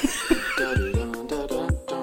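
A horse neighing: a loud, shrill, quavering whinny lasting about two seconds, broken into several pulsing bursts that waver in pitch.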